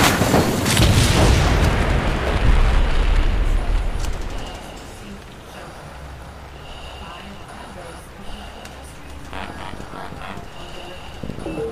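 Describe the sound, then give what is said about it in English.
An explosion from a self-destruct sequence erupts in a loud, broad burst that roars for about four seconds, then drops to a lower, steady rumble that lingers to the end. “5, 4, 3, 2, 1. Initiating self-destruct.”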